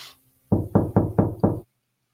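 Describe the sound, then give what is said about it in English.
Five firm knocks on a door, evenly spaced in a quick, steady rhythm, each a short hollow thud that stands alone against silence. “Someone knocked on the door.”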